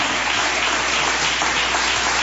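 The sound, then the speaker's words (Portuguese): A church audience breaks into loud, dense applause during an evangelical service, clapping for Jesus as a pastor is welcomed. The clapping stays thick and steady throughout, with no voices over it. “Palmas para Jesus.”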